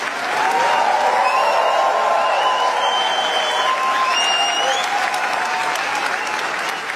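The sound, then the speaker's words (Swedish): Sustained applause fills a standing ovation after a film's world premiere at the Cannes film festival: a dense, steady clapping roar that runs for the full length, with a few cheers mixed in. “så här lät det när skådespelaren Lea Seydoux fick ta emot stående ovationer för filmen Gentle Monster efter att den haft premiär under den pågående filmfestivalen i Cannes.”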